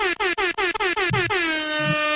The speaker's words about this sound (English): Where's my air horn?